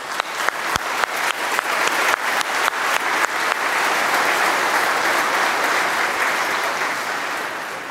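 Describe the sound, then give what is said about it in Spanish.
Audience applause for the mothers at a Mother's Day gathering. It opens with a few sharp, separate claps, quickly swells into dense, steady clapping and eases off slightly at the end. “Vamos a darles un aplauso, ¿eh?”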